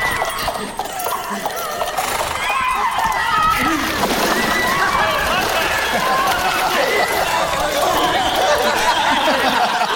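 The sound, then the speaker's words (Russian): A duke falls backwards into a water fountain with a splash and sloshing water, amid continuous clattering horse hooves and voices. “Отступая, герцог падает в фонтан с водой, тут же поднимается и размахивает мечом.”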